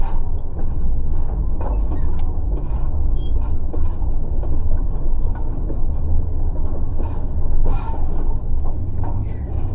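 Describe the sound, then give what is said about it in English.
A train rumbles past, a dense, loud and steady low roar with scattered clanks and rattles running through the whole stretch. “It startles you, and instead of jumping, you fall directly under train.”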